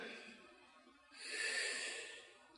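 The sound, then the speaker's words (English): A person catching their breath: one soft, airy breath that swells and fades over about a second and a half, heard alone without talk. “Let me catch my breath”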